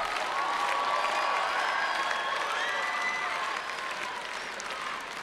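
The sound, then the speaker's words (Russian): Audience applause at an international charity festival, a dense, steady wash of clapping that holds loud and then eases slightly toward the end. “Ваши аплодисменты. Громче, громче аплодисменты.”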